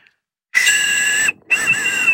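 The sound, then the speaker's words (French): Small safety whistle from a road-safety and hiking kit blown twice: two shrill, steady blasts, the first under a second long and the second a little shorter, separated by a brief pause. “Le petit sifflet.”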